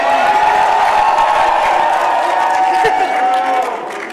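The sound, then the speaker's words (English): An audience at a live parody show cheers and whoops, a loud, sustained wash of crowd noise that eases off slightly toward the end. “Please hoot and holler as you wish whenever you feel like it. Even right now.”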